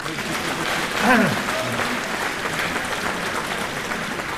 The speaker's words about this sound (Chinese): 再鼓鼓掌。